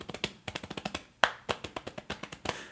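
A hand taps on a chest over and over, tapping out a beat in quick, even bursts with a few stronger accents, fairly quiet and with no voices.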